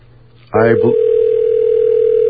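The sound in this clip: A telephone line tone from an ESS exchange, heard after dialing, holds steady and loud at a low, even pitch. It begins just after a brief voice and continues unbroken to the end.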